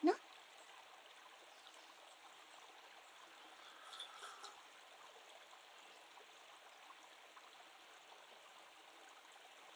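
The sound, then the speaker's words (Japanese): A small stream flows through temple grounds as a faint, steady watery hiss and trickle, with a slight swell of gurgling midway. “うららかな日差しに境内を流れる小川、緑も豊か、”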